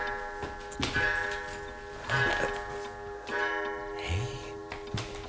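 A clock ticks steadily, with many regular, crisp ticks over a continuous humming tone.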